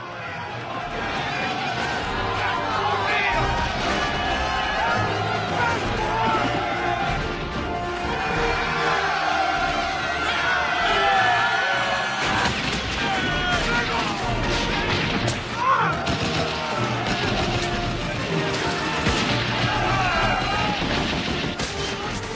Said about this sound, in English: And here is the famous charge of San Juan Hill. As Remington so famously portrayed in the painting.